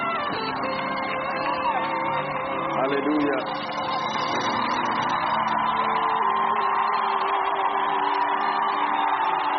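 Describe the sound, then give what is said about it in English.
A church audience cheers and shouts to welcome a preacher, a loud sustained roar of voices with whoops that holds steady throughout. “Come on, let's put our hands together and receive God's servant, Apostle Joshua Selman.”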